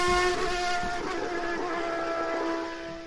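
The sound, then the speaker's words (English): A Williams Formula One race car engine gives a loud, sustained mechanical drone with strong steady harmonic tones, holding level before easing slightly toward the end. “The Atlassian Williams F1 team car is hitting the pavilion where you can see it up close and personal. Don't just hear the race.”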